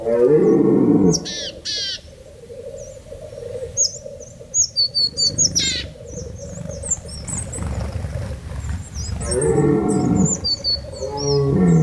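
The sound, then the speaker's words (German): Red deer stags bellowing from the mountains: deep, drawn-out roaring bellows open and close the stretch, with scattered high bird chirps and twitters above a steady low rumble. “das Melden der Hirsche aus den Tiefen des Bergraums”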